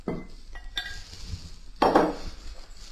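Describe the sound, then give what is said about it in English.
Clinks and clatter of a bowl and utensils as liquid ingredients are added to dry ingredients for baking. A few light knocks come early, then a louder, brighter burst of clattering near the end, with no talking. “So I'll just add now the liquid ingredients to the dry.”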